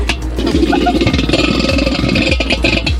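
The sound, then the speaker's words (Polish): An old milk cream separator (centrifuge) from the 1970s runs stiffly and rubs somewhere inside, giving a loud, continuous churning rumble with rhythmic low thumps and a scraping, clattering edge. “tu mamy urządzenie, które było używane jeszcze w latach, powiedzmy, 70., tak zwana wirówka do mleka. Ona tu jest bardzo ciężko chodzi, bo tu, żeby...”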